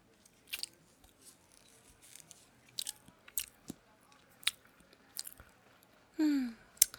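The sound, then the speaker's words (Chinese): Crunchy chewing of a food sample at a tasting station, heard as many brief, irregular bites and crunches at a soft level, with no talk over it. “这里有试吃啊，尝一下。”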